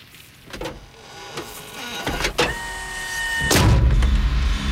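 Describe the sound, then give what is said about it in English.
A bullet-ridden police car door swings open, with a few sharp metallic clunks and a strained mechanical whirring tone, growing into a louder rumble near the end. “The bullet-ridden door of the police car swings open.”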